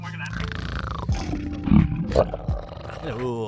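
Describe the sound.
A voice imitates a dragon with a growling, throaty roar broken into several rough bursts and snarls, loudest in the middle.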